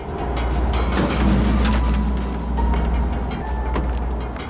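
Continuous low rumble of a city tram coming to a stop, a steady heavy drone with faint high metallic squeal tones and no speech.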